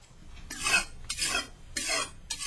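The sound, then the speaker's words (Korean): Knife being sharpened, heard as four long rasping strokes in a steady, even rhythm, each a broad scraping sweep with short gaps between, with no voices. “잘 들어보세요. 칼 가는 소리 들리지 않소?”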